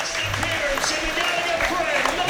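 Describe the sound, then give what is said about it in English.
Rugby fans applaud a Harlequins fullback leaving the pitch, a steady, even wash of crowd clapping under a commentator's voice. “It looks, by the way, the fans are applauding as if he might be leaving as well, doesn't it?”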